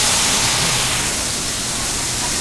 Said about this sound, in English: We're going to add just a touch of water to that, and that's going to help it steam and cook those onions quickly.